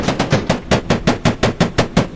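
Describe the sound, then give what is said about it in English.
Rapid gunfire sound effect: a fast, evenly spaced volley of many loud, crackling shots, like an automatic weapon firing without pause. “You're getting shot right now.”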